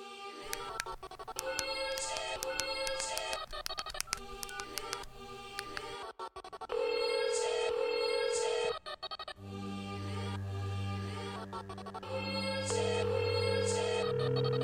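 A telephone call being dialed: touch-tone keypad beeps and longer steady electronic call tones, repeated throughout over a low, sustained backing.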